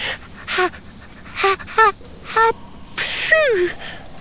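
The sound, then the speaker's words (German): A performed sneeze: four short, breathy gasps build up, then a loud noisy burst trails off into a falling voiced tone. “In diesem Augenblick, oh nein, muss Mathilda niesen.”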